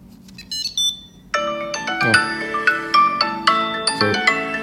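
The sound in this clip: A phone ringtone set off by double-clicking a Tile Mate tracker: a few faint high blips, then a loud, bright electronic melody of many repeating chimed notes.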